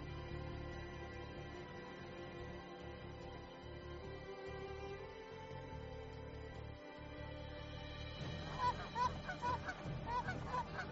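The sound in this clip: Geese honk in a quick series of short, nasal calls during the final few seconds, rising clearly above a steady, humming tonal background that runs throughout.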